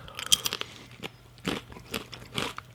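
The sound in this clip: Crisp crunching and biting on spelt wholemeal crackers, heard as several separate crackly bursts with short pauses between them, fairly quiet and with no talking.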